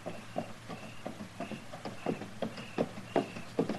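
Clip-clop of a horse's hooves as it is led, with a body tied across its saddle, a steady walking rhythm of many soft, evenly spaced hoofbeats.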